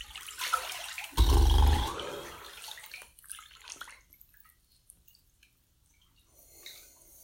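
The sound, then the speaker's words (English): Water splashes in a bathtub as hair is wetted, with one loud, rushing surge followed by softer trickles and drips that fade to near silence. “All right, moment of silence so I can get my hair wet.”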